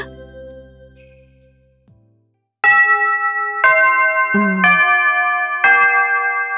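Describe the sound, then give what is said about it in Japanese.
A school chime marks the end of class with four bright, sustained bell-like notes about a second apart. A softer fading tone comes before them, and no one speaks. “少しだけ考えるつもりが、授業終了のチャイムが鳴ってしまった。”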